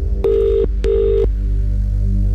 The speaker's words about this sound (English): We've got to let this phone ring for 20 seconds. Is it your phone? You've got to get to it now.